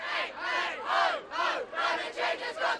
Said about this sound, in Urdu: مظاہرین نعرے بلند کر رہے ہیں اور موسمیات کی تبدیلی کا مسئلہ ختم ہونا چاہیے۔